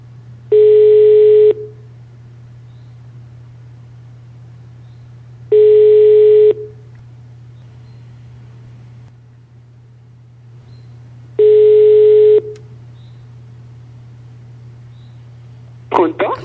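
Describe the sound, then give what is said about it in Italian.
A telephone call being placed, with three long ringback tones separated by even pauses over a steady low hum, and a voice cutting in briefly at the very end. “che provo a chiamare, che da una settimana che provo a chiamare e non riesco a trovarla.”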